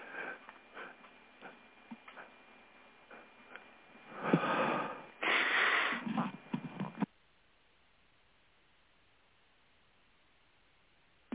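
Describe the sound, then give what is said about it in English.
A stifled sneeze: faint sniffs and breaths build to two muffled, breathy bursts, then near silence follows. “I had to sneeze, so stifle a sneeze and sneeze.”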